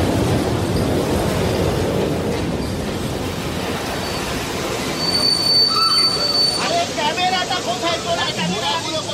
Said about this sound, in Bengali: কালো ধোঁয়া ছাড়তে ছাড়তে আটটা বগি সমেত পুরনো টাইপের ইঞ্জিনটা যখন লেভেল ক্রসিং এর কাছে এসে দাঁড়ালো